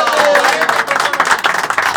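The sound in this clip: Applause from a crowd at a neighbourhood gathering, a dense patter of clapping with voices calling out over it.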